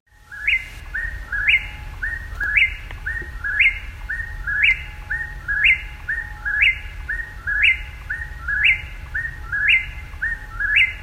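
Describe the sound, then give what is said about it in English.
Black-billed cuckoo calling in a long, steady series of soft, hollow notes bunched into quick runs of three or four. The evenly spaced groups repeat many times at a moderate level over a low rumbling background. “Black-billed cuckoo.”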